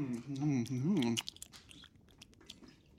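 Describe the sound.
Food being chewed, first under a voice, then alone as many small, crisp crunching clicks in an uneven rhythm, mostly faint with a few sharper bites.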